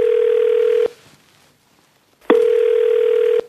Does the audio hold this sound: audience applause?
no